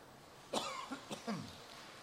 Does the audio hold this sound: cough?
yes